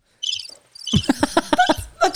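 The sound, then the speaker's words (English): A cricket chirping sound effect gives a quick run of loud, squeaky, rhythmic chirps after a fainter, higher trill at the start, with no voices over it. “That's the cricket, the famous cricket.”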